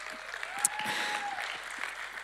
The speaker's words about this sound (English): Appreciate your applause, but that's not the reason I'm sharing this.